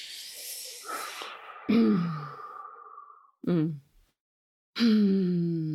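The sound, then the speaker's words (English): Deep breaths taken slowly and deliberately: a long airy inhale followed by a few voiced, sighing exhales separated by short pauses of silence. “I'm just gonna close my eyes and take a couple deep breaths and ask that we all do that on the call”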